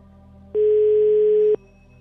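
A single steady telephone ringback tone from an unanswered call: one low, even beep lasting about a second, starting and stopping abruptly over a faint background hum.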